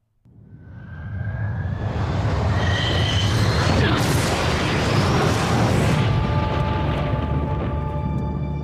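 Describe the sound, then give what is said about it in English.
Movie trailer audio for Top Gun: Maverick (2022), a loud, sustained rumbling roar with booming bursts and whining tonal streaks running through it from start to finish. “And Sam, can you play us out with the trailer for 2022 Top Gun Maverick?”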